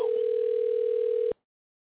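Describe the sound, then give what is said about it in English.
A steady telephone tone sounds while a call is dialed: one unbroken mid-pitched hum lasting just over a second before cutting off abruptly, with no talk. “we're dialing him in. So hopefully he'll pick up for us”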